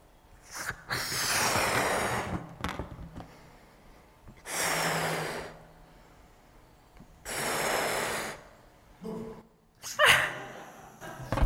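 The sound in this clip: A person blows out air in three long, steady, breathy gusts, with quieter intakes of breath between them and short sharp puffs near the end.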